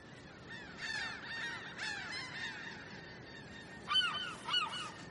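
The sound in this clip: Seagulls calling over the sea at the shore as the tide comes in: faint, scattered clusters of harsh, wavering calls over a steady background hiss, with a louder pair of calls near the end.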